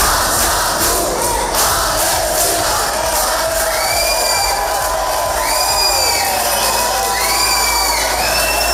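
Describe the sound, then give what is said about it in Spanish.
A large crowd shouts and roars during disturbances at an airport, where police charged activists who had broken a security cordon and blocked the exits. The noise is loud, dense and unbroken throughout, with shouted cries rising over it. “Sonido de esos altercados, de esos disturbios ocurridos ayer en el aeropuerto de Bilbao.”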